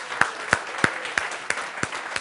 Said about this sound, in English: Let's do another round of applause for anybody in a blue shirt who worked their butts off to make this happen.